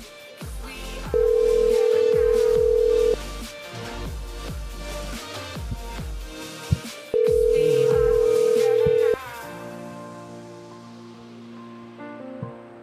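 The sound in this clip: An outgoing phone call to a scooter business rings twice, each steady low ring tone lasting about two seconds and separated by a pause, with background clatter in between before the line switches over.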